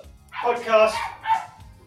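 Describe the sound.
A dog barks while someone is trying to record, giving a few loud, harsh yelping barks in quick bursts, with the first pair close together and another after a short pause, all over low background rumble.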